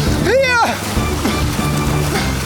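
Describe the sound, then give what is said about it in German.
Water sloshing as the fire-rescue boat Neptun sets off, opening with a brief swooping tonal cry, then continuous churning splashes. “Während die beiden mit dem Rettungsboot losfahren, kann sich Mike gerade noch über Wasser halten.”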